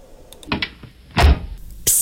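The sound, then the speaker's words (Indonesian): A car door closes with a solid, low thump, set among a few lighter clicks and rustles before it and a short, bright, hissy burst after it. “dah masuk dalam kereta kan? Terus kunci pintu kereta tau.”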